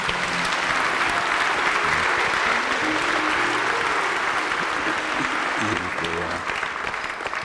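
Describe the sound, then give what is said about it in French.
A church audience applauds and cheers during a French-language service: loud, sustained clapping that stays dense and even for over seven seconds, with voices mixed in underneath. “On acclame très très fort le Seigneur.”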